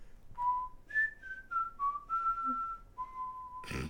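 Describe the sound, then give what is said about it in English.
A person whistles an imitation of a video game loading screen sound over a comlink: faint held tones that jump up, then step gradually downward, ending in a short breathy burst. “He's making his loading screen sound over the comlink.”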